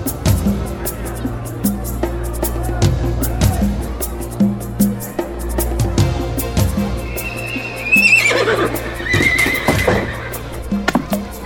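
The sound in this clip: A horse pulling a traditional andong carriage clops along in a steady series of hoof beats, then gives a loud, high whinny near the end.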